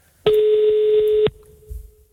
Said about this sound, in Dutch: Dus we gaan nu eens even bellen.